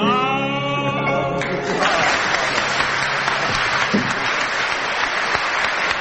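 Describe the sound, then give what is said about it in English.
Audience applause after a song performance. A held musical note fades out early, then a dense, steady wash of clapping takes over and stays loud to the end. “Worthy applause.”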